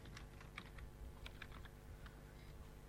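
Someone types a command on a computer keyboard, producing many light, irregular clicks over a low steady hum, faint and without talk.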